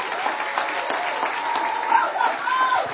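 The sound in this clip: Sustained applause from an audience welcoming Apostle Joshua Selman at a church gathering in London: a dense, steady clatter of clapping with voices and a faint tone rising over it.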